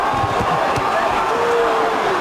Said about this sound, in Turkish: Biraz bakın, bir iki yumruk attı, seyirciler nasıl ayaklandı.